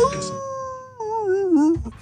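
A dog howls like a wolf. One long, steady howl is followed by a wavering howl that bends downward, with short yips at the start and the end.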